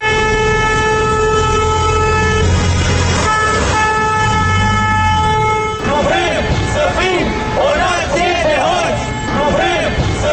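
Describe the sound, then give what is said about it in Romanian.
Car horns blare in long, sustained, overlapping tones during a protest march of drivers and cyclists around the Parliament building. Loud shouting voices and traffic noise then take over. “mai mulți șoferi și bicicliști au pornit într-un marș de 30 de minute în jurul Palatului Parlamentului. Au claxonat, au afișat tricolorul”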